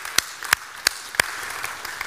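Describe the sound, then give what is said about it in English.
A church audience applauds with a few sharp, evenly spaced claps standing out clearly, then thinner, softer clapping trailing off. “Can we just give the Lord another hand for all of that work that we have been seeing him do?”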